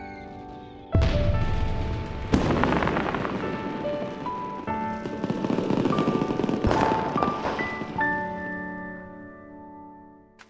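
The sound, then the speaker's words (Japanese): Fireworks bursting at a festival, with a few loud, sharp booms at spaced intervals. Sustained crackling and rumbling fill the gaps between them, along with steady tonal ringing. “花火って綺麗だね。”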